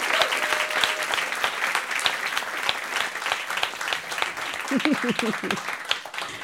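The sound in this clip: A studio audience at an Austin live music show applauds in a dense, steady wash of clapping that stays fairly loud for the whole stretch.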